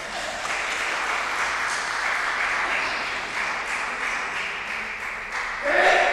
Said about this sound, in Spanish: Un aplauso.